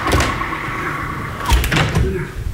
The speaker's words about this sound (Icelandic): nú verðum við að loka hurðinni.